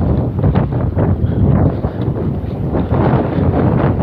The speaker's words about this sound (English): The wind, she blows. I don't know if it's picking up on the microphone, but there is a... I just turned into the wind and it's blowing straight in my face.